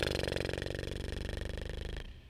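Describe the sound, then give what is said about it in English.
A lip flutter: breath pushed out through loosely closed lips makes a rapid, steady buzzing that lasts about two seconds and then fades into a soft exhale. “Inhale through your nose. Exhale, flutter your lips together.”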